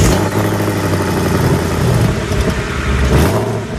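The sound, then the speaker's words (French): A Ford Mustang V8 engine revs in a loud, continuous roar with a deep throbbing rumble underneath, holding strong throughout with slight surges and no talk. “Là, il y a un V8. Je pense. Mustang. Exactement. Okay. Voilà, Ford Mustang.”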